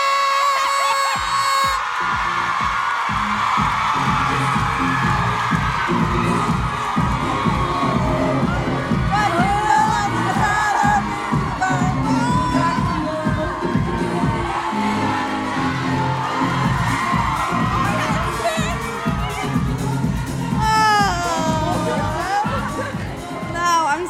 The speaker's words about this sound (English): So please put your hands together and everybody welcome to Johnson!